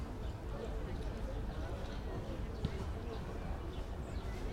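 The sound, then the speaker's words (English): Street ambience in Kreuzberg, Berlin, on a November Sunday with people walking by, a steady low rumble dotted with faint footstep-like taps. “leave our audience listening to the sounds of Kreuzberg in November. The fall.”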